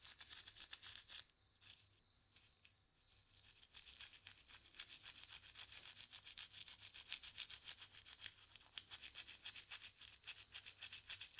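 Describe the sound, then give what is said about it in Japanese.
A toothbrush held at an angle scrubs between the teeth and gums in a fast, steady run of bristly, high-pitched strokes. The brushing eases off briefly early on, then carries on evenly and unbroken. “続けて歯ブラシを斜めに向けたまま、歯と歯茎の間を、”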